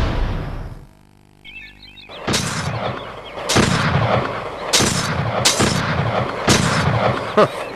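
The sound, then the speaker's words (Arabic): Gunfire shots: several loud, sharp cracks spaced roughly a second apart over a rumbling, noisy background. A brief quiet stretch with a faint high warble comes before them. “صوت جميل، هذا ما أدعوه موسيقى الطلقات.”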